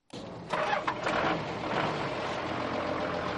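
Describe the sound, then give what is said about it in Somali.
A vehicle engine starts at a bus station in Hargeisa: a short cranking burst, then a steady mid-pitched idling rumble that carries on without talk. “waxaan ku suganahay istaanka basaska ee magaalada Hargeysa”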